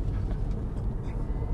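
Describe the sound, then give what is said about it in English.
An electric car accelerating onto a highway, heard as a steady low road rumble with a soft, even hum, moderately quiet throughout. “You can see you can accelerate on here, onto the highway, and you're not lagging behind anybody.”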